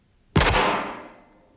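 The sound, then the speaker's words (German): A single gunshot in a tense dramatic scene: a sudden loud bang with a sharp attack and a rumbling tail that fades over about a second. “Ein Schuss ist gefallen?”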